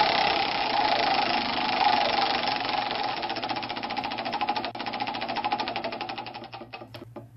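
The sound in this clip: A prize wheel spins after a lever is pulled, giving a dense, whirring rattle of rapid clicks that gradually slows into separate ticks near the end, with no voices.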